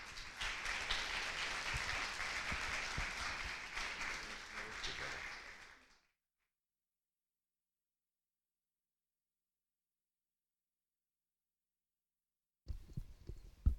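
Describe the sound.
A church audience applauds to welcome a speaker with dense, steady clapping for about six seconds. The clapping tapers off into silence.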